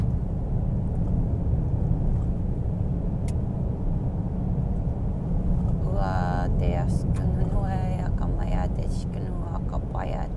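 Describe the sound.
A car being driven gives a steady low engine and road rumble that runs the whole way through, and a voice speaks over it in the second half.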